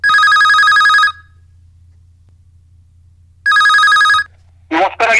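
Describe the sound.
A telephone rings for an incoming call to a radio phone-in show, two loud, buzzing electronic ring bursts separated by a pause over a low hum, then a voice briefly begins speaking.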